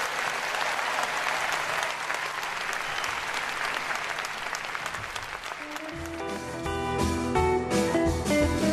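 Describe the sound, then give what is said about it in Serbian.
Audience applause for Nick Cave after a song, dense and steady clapping that holds for several seconds before music comes in and plays under the tail of the clapping. “Da, zaista aplauzi za Nika Cave-a”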